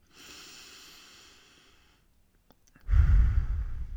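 A deep breath in and out during a guided relaxation exercise: a soft, hissy inhale lasting about two seconds, a brief pause, then a louder, low, rushing exhale.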